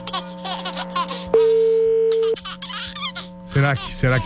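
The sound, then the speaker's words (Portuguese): A telephone tone sounds while placing a call: one steady, mid-pitched beep lasting about a second, framed by lively laughter and people talking before and after. “Vamos ligar pro Léo Dias, lógico.”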